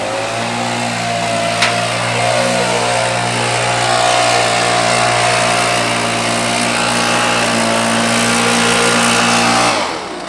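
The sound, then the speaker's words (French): Backpack leaf blowers and a street sweeper vehicle gathering litter: a loud, steady engine drone with a constant low harmonic hum that holds level, then cuts off just before the end. “je descends un instant de la balayeuse pour retrouver les hommes à pied qui portent les soufflettes comme des sacs à dos et rassemblent les déchets”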